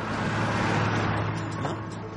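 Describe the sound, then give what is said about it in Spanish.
A tractor passes overhead on a bridge: a low, rumbling engine and road noise stays loud and broad, then eases slightly toward the end. “Un tractor pasa por encima.”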